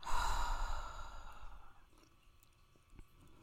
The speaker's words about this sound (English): So let's start with our breath. Let's breathe together three times.